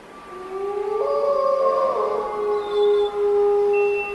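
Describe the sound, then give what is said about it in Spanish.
Wolves howling below a hill on a moonlit night: several long, sustained howls overlap as a loud chorus of steady drawn-out tones, with a higher thin note joining briefly near the end. “¡Lobos! ¡Mira allí abajo! ¡Son lobos!”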